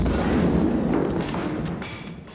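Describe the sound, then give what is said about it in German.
An explosion rolls out as a deep, dense boom that fades slowly. It comes as part of a blast that sets off a huge, intensely hot fire. No voices are heard. “Lauf zu den Bäumen rüber, falls noch mehr Explosionen kommen.”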